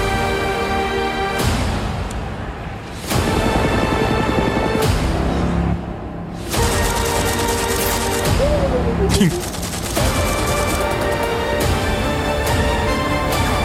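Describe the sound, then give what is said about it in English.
Gunfire in an action film scene, with bullets shot at a man as he dodges them: several sharp shots that cut through loud, dense music. “Watch The Rock dodge bullets and make this jump with a fake leg.”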